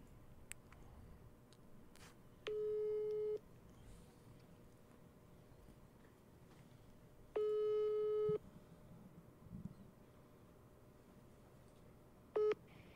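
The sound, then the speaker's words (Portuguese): Ringback tone of an outgoing telephone call ringing out: two steady, mid-pitched tone bursts of about a second each, spaced roughly five seconds apart, then a clipped third burst at the end, over faint background hiss. “Eu vou tentar ligar no Minato, vai? Vamos. Tenta ligar lá direto o Minato”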